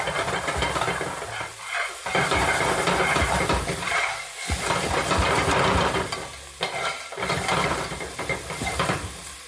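Aromatics fry over intense heat, stir-fried Cantonese style in a pan rather than a wok: a loud, continuous sizzling hiss with rough stirring and scraping, briefly dipping a few times before surging back.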